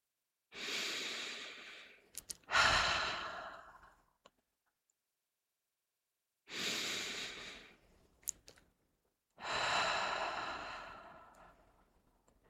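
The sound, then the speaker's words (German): Deep, slow breathing during a guided meditation: four long, airy breath sounds in two pairs, each swelling and fading, separated by quiet pauses, with no talking. “Nun atme nochmal tief ein und aus.”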